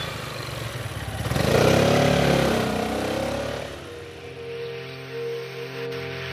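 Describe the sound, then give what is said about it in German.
A Piaggio 400 three-wheeled vehicle, two wheels in front and one behind, drives off with its revving engine swelling to a peak and then easing, followed by a steadier, lower engine hum. “dann zieht auch der Stadtarchivar davon mit seiner 400er Piaggio. Auf 3 Rädern, 2 vorn, 1 hinten.”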